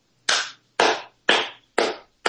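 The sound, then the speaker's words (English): Slow hand clapping in agreement: five sharp, evenly spaced claps ring out alone, each decaying quickly into silence. “It's me clapping in agreement.”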